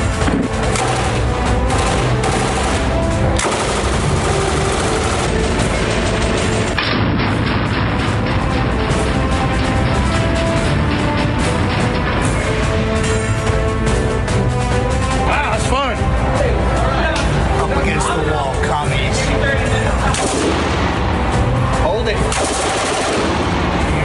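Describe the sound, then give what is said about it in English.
An M249 SAW belt-fed machine gun fires: loud, dense, rapid bursts of shots roll on almost without pause, a continuous crackling clatter with heavy booming reports. “Also got an M249 saw, belt-fed machine gun.”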